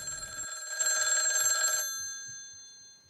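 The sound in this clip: A telephone rings once with a bright, metallic bell tone that sustains briefly and then slowly fades away.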